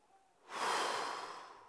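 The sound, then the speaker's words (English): A preacher blows out one long breath to act out Jesus breathing on his disciples: a faint, airy rush that swells after a short pause and then slowly fades. “And then he does this. He breathes on them.”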